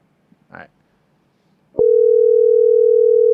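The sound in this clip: An outgoing call's telephone tone cuts in abruptly after near silence and holds as one steady, loud, unbroken pitch to the end.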